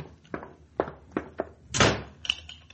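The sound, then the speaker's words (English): A closet door shut and locked in a prison: a few dull wooden thuds, then a louder slam, followed by a couple of short sharp clicks, with no talking. “You two hombres, get into that closet. You stand right where you are, Warden. I'll lock these hombres in.”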